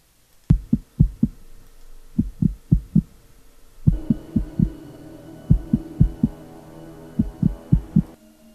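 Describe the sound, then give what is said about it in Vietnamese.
A heartbeat sound effect of deep, low thumps in quick clusters separated by short pauses. A low droning hum enters partway through and continues under the beats almost to the end. “tiếng nhịp tim của cậu ta chậm dần, cứ thình thịch, thình thịch.”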